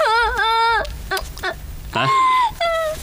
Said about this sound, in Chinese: 为什么刚刚回来就无缘无故的哭了？发生什么事了？